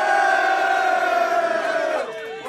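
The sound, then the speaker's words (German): Crowd at a rap battle cheering and shouting: a loud, sustained roar of voices with long held yells that drops off and thins near the end. “Machen wir zuerst Lärm für meinen Bruder, für den Wortverdreher aus Nordkorea!”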